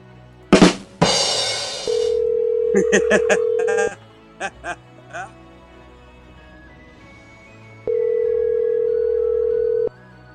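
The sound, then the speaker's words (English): A telephone rings unanswered: two long, steady ring tones separated by a pause, preceded by a few sharp clicks and bumps on the line. “He's got no audio and he doesn't pick up the phone.”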